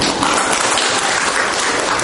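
Steady, dense applause at a Catholic church gathering, welcoming volunteers who joined a Divine Mercy evangelization group, sustained at an even level throughout.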